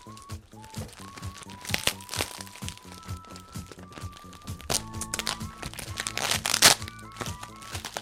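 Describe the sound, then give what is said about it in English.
A heavily taped toy package being torn open, with continuous crinkling, crackling and ripping of tape and packaging that builds in intensity and includes a few sharper cracks. “I'm scared to use scissors because I don't want to cut into a toy. Yeah. The amount of tape on this package”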